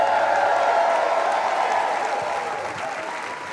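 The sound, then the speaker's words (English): A church audience applauds, a dense, steady wash of hand clapping that eases slowly toward the end, with no speech over it. “Give Jesus a great big hand clap.”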